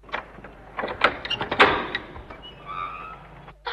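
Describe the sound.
A door is opened, giving a few quick clicks and knocks of the latch and handle, followed by a short scrape as it swings.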